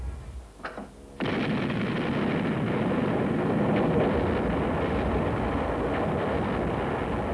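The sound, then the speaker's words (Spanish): British fleet naval guns open fire on the German battleship Bismarck at sea: one sudden heavy blast breaks into a loud, sustained roaring rumble that continues to the end, after a few faint thumps. “A las 8:47, la flota británica abrió el fuego.”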